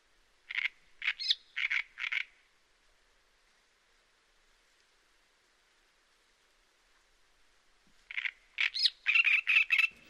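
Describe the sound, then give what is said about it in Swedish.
A male reed bird sings its quiet short song among the reeds: two brief bursts of scratchy, chattering notes separated by a long pause of near silence, with the second burst slightly busier. “Då sjunger de vad vi kallar kortsång. Väldigt mera lågmält. Bara lite karakarakrik.”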